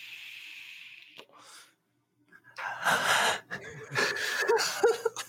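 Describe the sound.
A person draws a deep breath from a vape as a long, steady hiss. After a brief pause come louder, rough breathy bursts as the vapour is exhaled.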